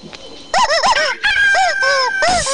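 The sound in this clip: A rooster crows a few times in a row, loud and harmonic, each call rising and then falling in pitch, with no other sounds around it.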